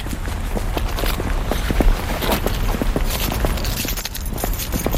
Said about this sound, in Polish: Chodźmy tutaj sobie wejdziemy w tą taką zieloną alejkę. Tym kamiennym chodnikiem sobie przejdziemy.